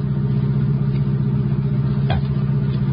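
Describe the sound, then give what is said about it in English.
A car engine rumbles steadily as the car drives slowly through the town of Aurora, searching for a street and house: a low, even drone with a faint clatter and no talk. “as we drove through Aurora slowly, looking for one street, one house.”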